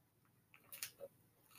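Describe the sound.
Scissors snip the excess edge off a homemade sticker: a few faint, crisp clicks and snips spaced over a quiet background, with no talking.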